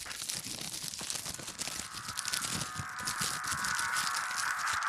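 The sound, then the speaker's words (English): Crinkling, crackling rustle of a wet plastic wrap package being unwrapped, a steady dense stream of crisp plastic noise with no pauses that grows slightly louder toward the end. “let me get my Saran wrap out. Wet Saran wrap package. Let me I gotta unwrap it.”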